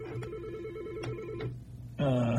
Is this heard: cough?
no